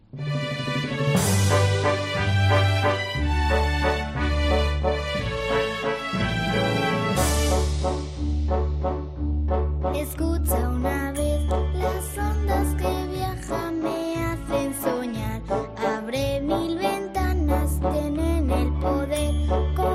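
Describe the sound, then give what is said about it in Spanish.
A song made by schoolchildren in Orihuela for radio day: a steady, pulsing low bass beat under bright, chiming melodic tones and full harmonies, loud and continuous throughout. “porque nos han hecho precisamente una canción especial para la radio.”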